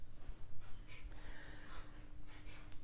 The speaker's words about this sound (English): Using your toilet muscles and your lower abdomen muscles to breathe out through your nose.